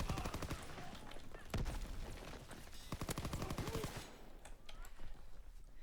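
Gunfire from weapons in a video game shooter: rapid volleys of sharp, loud shots in fast bursts, with scattered single shots between them and a quieter stretch toward the end.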